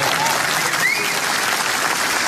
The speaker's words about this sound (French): Bravo, vous pouvez applaudir si vous voulez.